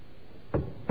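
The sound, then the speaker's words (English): Two dull knocks on a door, about a third of a second apart, over a faint steady hiss. “But Peter continued knocking.”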